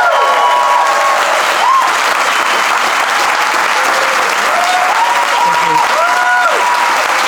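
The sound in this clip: An audience at the Leicester Square Theatre gives a long round of applause as guest Terry Hall is welcomed on stage. The loud, dense clapping stays steady for about seven seconds without a break.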